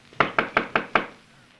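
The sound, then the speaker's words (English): Five sharp, evenly spaced knocks on an open cabin door, each a crisp woody rap that decays quickly, followed by a short quiet tail. “Yeah, we will knock before we go in.”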